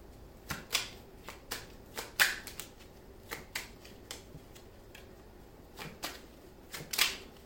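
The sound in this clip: A deck of tarot cards being shuffled and handled, giving many crisp, separate card snaps and flicks in an uneven rhythm, with no talk.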